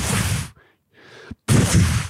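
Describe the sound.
Gunfire in a comedy skit set around a breakfast of bacon, eggs, sausage and a cast iron skillet. Two loud, dense bursts of shots are separated by a quieter gap that holds a single sharp crack.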